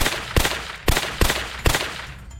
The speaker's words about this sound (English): I unloaded both clips into her.